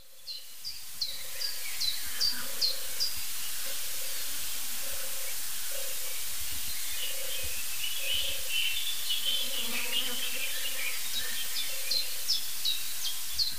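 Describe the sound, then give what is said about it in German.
European turtle dove calling: low purring notes repeated many times at an even pace, with higher bird chirps scattered above and a steady hiss underneath. “Also diese Turteltaube, die hat es wirklich in sich. Dieser Sound, meine ich.”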